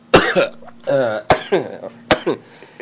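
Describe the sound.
Someone coughs hard in a few sharp bursts, mixed with voiced, speech-like sounds.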